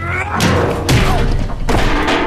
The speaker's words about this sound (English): So that's Jake throwing a chair at the two-way mirror, which then bounces off, hitting Jake in the face.